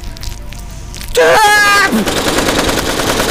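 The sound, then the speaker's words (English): Machine gun fire breaks in loud after a quieter opening, a dense rattle of rapid shots that carries on to the end. “I don't know where I got these machine guns from.”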